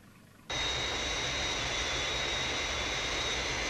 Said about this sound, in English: On glide path, rate of descent 500 feet a minute. Aircraft on glide path. 3 miles to threshold.